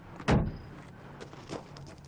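A door being opened: a short, solid thud followed about a second later by a softer, fainter knock over a quiet background.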